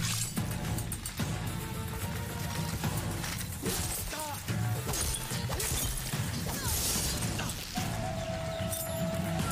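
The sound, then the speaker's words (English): Armor breaking off a character during a slow-motion swing combo in a video game: dense, loud crashing, clanking and whooshing effects that run continuously without a pause. “The sound you're hearing is the armor breaking off.”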